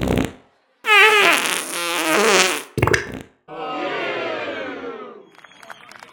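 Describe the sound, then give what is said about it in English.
A fart recorded with the microphone held up close to the anus: loud, rasping, flapping bursts, a short one, then a long sputtering blast, a brief pop and another drawn-out rumble trailing off more faintly. “if you wiggle your body around a bit, it moves your gases. I'm just going to... Here we go. Right, you ready? Yep. Right, put the microphone up against my anus. It'll make it louder.”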